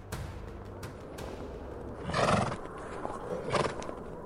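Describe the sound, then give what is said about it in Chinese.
A ridden horse whinnies in a loud shrill burst and then neighs again more briefly, with scattered hoof clops before the calls, all faint over a steady background hiss. “安娜骑上马儿后，开始了寻找姐姐艾莎的冒险之路。”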